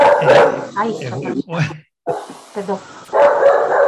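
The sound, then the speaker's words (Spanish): A dog barks when someone passes the door, a few sharp yaps and barks mixed in with people talking. “En cuanto pasa alguien por la puerta, ladra, lo siento, espero que no se escuche demasiado.”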